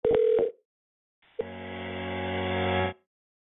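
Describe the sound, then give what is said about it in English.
Telephone tones on an automated customer-service line during a call transfer: a short beep, a brief silence, then a longer steady multi-tone hum that grows slightly louder before cutting off abruptly. “Please hold while your call is transferred.”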